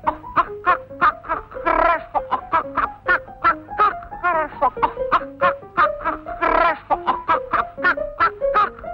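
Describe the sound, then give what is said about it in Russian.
Chickens and turkeys cluck and chatter in a busy run of short, throaty notes and occasional harsher squawks, with the calls overlapping almost without pause. “Пришли куры, индюшки, на картину свиньи посмотрели, головками покивали”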